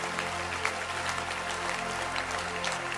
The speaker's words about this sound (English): think she deserves a beautiful hand clap.